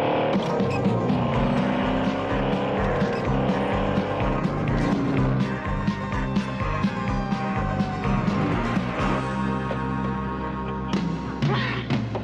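A car loaded with moonshine accelerates hard, its engine roaring loudly while the tires squeal and screech in long, wavering, high-pitched bursts, continuous for about twelve seconds with no talking.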